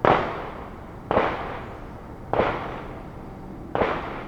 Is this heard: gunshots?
yes